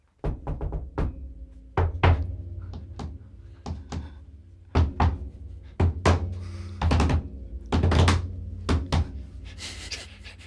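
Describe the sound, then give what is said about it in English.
Someone bangs on a roof the way one might at noisy neighbours, making many heavy, irregular thuds and knocks. Some come singly and others in quick clusters, with no voices. “I'm just going to bang the roof like one does when one has rather noisy neighbours.”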